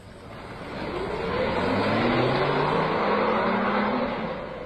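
A car engine drives off, its steady hum swelling louder over a couple of seconds and then easing slightly, with no voices.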